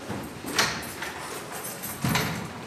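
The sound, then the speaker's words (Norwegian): Two muffled door clunks, about a second and a half apart, as a host locks the door of a large meeting room. “Vår vert låser oss inn i et gedigent møterom.”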